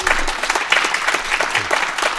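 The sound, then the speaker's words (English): An audience applauds a guest ambassador after a talk: continuous, dense clapping at fairly even loudness fills the whole span without any voices. “please, a round of applause for Ambassador Craig Allen.”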